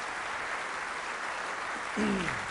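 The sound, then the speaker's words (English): Audience applause rises as a speaker is welcomed to the stage, a steady, even wash of clapping that holds throughout, with a voice briefly cutting in near the end. “Please put your hands together for Jura Thorpe.”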